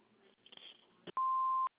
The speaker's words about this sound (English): You've reached the Spezak residence. Please leave a message after the beep.